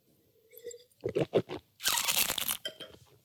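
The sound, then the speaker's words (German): Slurping wine while tasting it: a few soft wet mouth sounds and clicks, then a sustained airy, hissing slurp as air is drawn through the wine, ending with a brief quieter tail. “Jetzt nehme ich so einen Schluck und dann sieht man ja immer wieder oder hört man auch, wie die Leute dann so schlürfen.”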